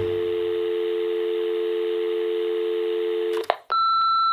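A steady, continuous telephone tone is cut off by a sharp click. A different, higher electronic tone with a brief beep follows, and no one speaks.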